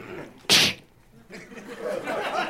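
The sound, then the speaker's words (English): A one-handed high-five gives a single sharp, crisp slap that stands out above a quiet, murmuring background. “one hand high-fiving”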